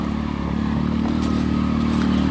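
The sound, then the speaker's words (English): An ATV drives along trails, producing a continuous, loud engine drone with a rough, rattling texture. The motor holds fairly even throughout, with no voices. “I think he has nothing to do, so he just drives around the trails all day on this friggin' ATV.”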